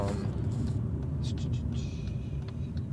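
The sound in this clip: Steady low car-interior rumble while driving, a dense droning hum that holds evenly throughout with faint higher hiss above it.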